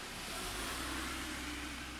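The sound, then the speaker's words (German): Cars driving past on a road by the Rhine, a faint, steady wash of tyre and engine noise with a low hum underneath and no distinct peaks. “Kommt wieder Autos vorbei. Eine halbe Stunde ist hier kein Auto vorbeigekommen. Jetzt ist hier Rush Hour.”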